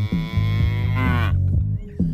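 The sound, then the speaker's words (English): A cow's moo, drawn-out and strongly tonal, over a steady low drone, with several regular pulses running through the whole sound. “And the cow that goes meh. Meh. Meh.”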